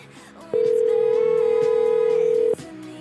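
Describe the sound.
A single steady telephone ringback tone sounds for about two seconds, loud and unwavering, starting and stopping abruptly over a faint background.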